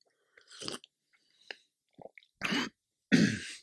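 Throat clearing from a tickle in the throat: a few short, rasping bursts separated by pauses, the last two louder and fuller, with no talk.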